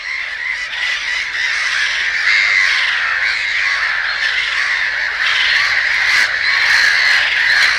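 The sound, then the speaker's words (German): A noisy black-headed gull colony near Bitterfeld, where a rare Mediterranean gull nests among them, gives dense, harsh, overlapping squawks and calls that form a loud, unbroken wall of sound throughout. “diese seltene Möwe, die dort bei Bitterfeld ein Heim gefunden hat, inmitten der echt krachig lärmigen Lachmöwen. Hier kann man mal hören, wie das da wirklich klingt.”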